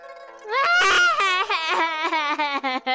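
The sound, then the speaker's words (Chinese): A voice acts out loud crying: a long, wavering wail with sobbing breaks. It rises sharply, then continues in uneven, shaky pulses. “哥哥，对对，刚刚那是哭，是哭啊！哭得太惨。”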